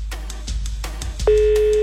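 Ringback tone on an outgoing phone call: a single steady low-pitched tone starts about two-thirds of the way in, after a stretch of noisy background sound, and holds loud and unbroken to the end.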